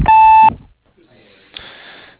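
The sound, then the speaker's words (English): A loud, steady electronic tone from an answering machine lasts about half a second, signalling the start of a voicemail recording. After it, only quieter hiss and tonal noise remain, with no clear speech. “So please leave a message after the beep, and we'll get back with you as soon as possible.”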